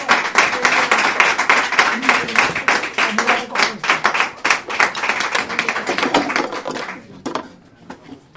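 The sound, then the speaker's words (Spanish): Audience applause at a presentation event in Muel: dense, continuous clapping for about seven seconds that then thins out and fades. “Mientras, un aplauso para Pedro”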